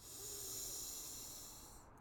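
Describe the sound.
A slow inhalation through one nostril during alternate nostril breathing: a faint, airy hiss that swells gently, holds for about two seconds, then eases off.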